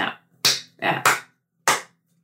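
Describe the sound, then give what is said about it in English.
A slow golf clap from a single person: a few sharp, dry claps, unevenly spaced, with near silence between them. “That's you have to do more of a golf clap. Yeah, the slow golf.”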